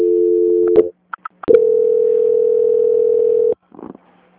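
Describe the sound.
Steady telephone transfer tone on a bank call line: a long flat tone, a pause broken by a few faint clicks, then a second, longer unbroken tone that cuts off abruptly before a short burst of line noise.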